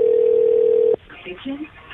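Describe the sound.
A steady, low telephone dial tone as a prank call is placed. It holds evenly for about a second and then cuts off, giving way to faint talk.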